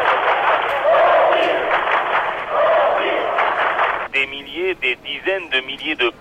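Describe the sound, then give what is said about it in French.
A crowd sings The Internationale at a demonstration in Leipzig, a massed wash of voices held steady for about four seconds, then a single voice speaks over the fading crowd noise. “L'international retentit.”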